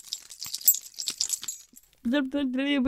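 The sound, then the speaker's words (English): A human voice imitates rattling keys with a quick run of hissy, clicking mouth sounds lasting over a second. After a brief pause, a louder voiced sound follows. “I'm gonna go next and attempt to mimic the noise of keys rattling.”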